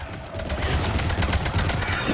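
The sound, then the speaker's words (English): Rapid machine gun fire rattles along in a dense, continuous stream of sharp bursts. It stays loud and steady for about two seconds with no pause. “A locust? Some sort of machine gun thingy?”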